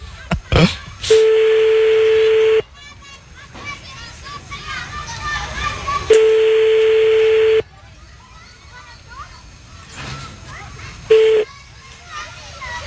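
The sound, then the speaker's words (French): A telephone ringing on an outgoing call, heard as a steady ringback tone on the line: two long tones, each about a second and a half, then a brief third. Voices and children's chatter fill the gaps between the tones. “Bon, on rappelle. Ça sonne.”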